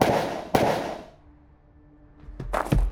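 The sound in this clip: Gunshots ring out in a street: two sharp, loud bangs with decaying tails, followed by a few quicker cracks.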